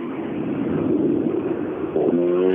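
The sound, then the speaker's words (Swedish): A 1600 MK2 rally car arrives on a rally stage. A steady, rough engine drone builds, and near the end it turns into a clear, tonal engine note. “Och så kommer det. var länge sedan vi såg Holgersson i hans 1600 MK2.”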